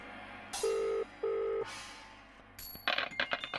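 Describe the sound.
Ringback tone of a dialled phone call to a Welsh number: two steady, mid-pitched tone bursts with a brief gap between them, followed by a click and some rustling handling noise.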